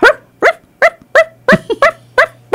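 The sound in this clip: A human voice imitates a small yappy dog with a rapid, steady series of sharp, high 'arf' yips, loud and with no other sound.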